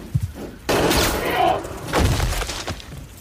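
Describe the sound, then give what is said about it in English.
A loud gunshot bursts out with a rough, decaying tail, followed about a second later by another heavy blast. “Wow. Good shot”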